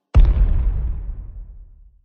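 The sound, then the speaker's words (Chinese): A bomb explodes as enemies step on it, a sudden loud boom followed by a long, deep rumbling decay that fades out over nearly two seconds. “看样子他们踩到了我事先买好的炸弹了。唉，那些是我此次出行最后的炸弹”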